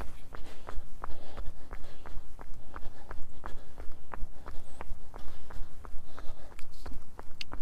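Footsteps of a person running: many quick, even strides land in a steady rhythm over a constant low rumble.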